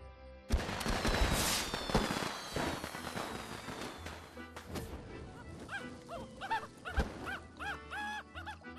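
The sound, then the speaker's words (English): Fireworks going off: a few sharp bangs and crackling bursts, mixed with thin whistling and squealing tones that rise and fall, loud at first and then more scattered. “Got the fireworks? Oh, yeah.”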